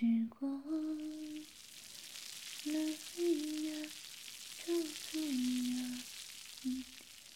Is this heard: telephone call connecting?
no

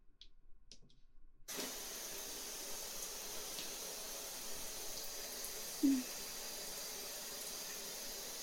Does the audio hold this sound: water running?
yes

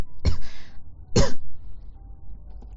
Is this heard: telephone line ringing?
no

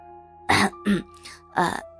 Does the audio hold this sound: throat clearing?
yes

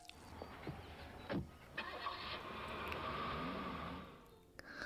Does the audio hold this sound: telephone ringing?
no

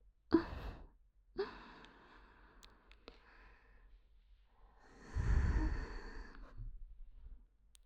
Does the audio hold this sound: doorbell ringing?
no

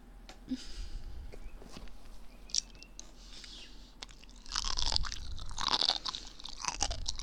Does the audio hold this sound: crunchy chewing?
yes

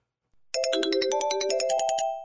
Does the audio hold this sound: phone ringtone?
yes

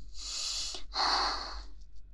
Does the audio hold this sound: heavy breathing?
yes

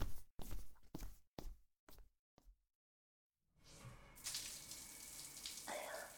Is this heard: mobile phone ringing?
no

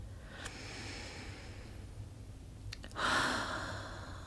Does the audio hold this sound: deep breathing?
yes

